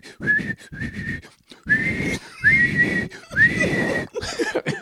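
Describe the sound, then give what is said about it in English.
A person's voice imitates blowing a whistle, producing a series of short, shrill, breathy whistle blasts separated by brief gaps. Some blasts scoop upward in pitch at their start. “she swims over to get the whistle and she's all”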